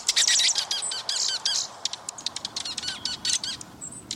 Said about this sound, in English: But there's another type of snowbird the dark eyed junco.